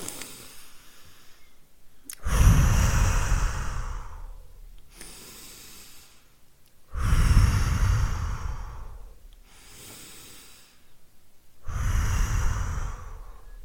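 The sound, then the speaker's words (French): Three deep, slow breaths, each a loud, rushing breathy exhale of about two seconds, evenly spaced with quieter gaps between them and no talk. “Je ferme les yeux. Je prends trois grandes respirations.”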